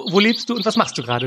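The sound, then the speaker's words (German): Small birds chirp faintly in big trees outside a balcony, with light high tweets scattered beneath a person talking clearly in the foreground. “Oh, man hört Vögelchen im Hintergrund.”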